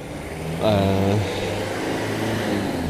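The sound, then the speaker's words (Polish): Diesel engine of a Mercedes Sprinter van: a short rising engine note swells for about half a second, then settles into a steady low rumble. “To był Mercedes Sprinter. Diesel, jak słychać. Autobusik.”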